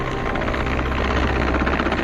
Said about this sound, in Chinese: 检查好绳索安全后，直升机匀速上升高度，将落水人员成功救至舱内。